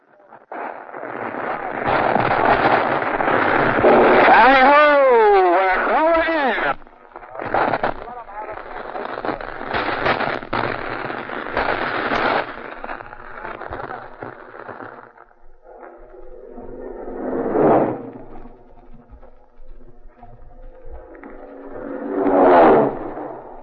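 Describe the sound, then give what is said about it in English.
A loud, roaring attack by four Marine dive bombers on microphones at a Marine air base. A whining engine tone sweeps up and down in pitch during the first dive, followed by more broad roaring passes and two shorter swells near the end. “what you just heard was an actual dive bombing attack on our Vox Pop microphones by four Marine dive bombers”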